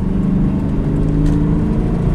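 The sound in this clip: A car engine drones in slow traffic, well under the speed limit, as a continuous low, throbbing hum with a slight whir and no voices.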